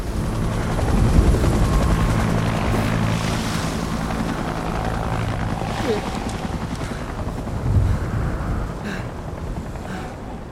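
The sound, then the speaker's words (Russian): A helicopter lifts off and churns up swirling dust at a military setting. Its steady low rotor thump and broad rushing roar stay loud and continuous throughout, with gusty wind-like noise layered on top. “Он движется неуверенно, останавливается посмотреть на взлетающий вертолет, морщась от кружащей вокруг пыли.”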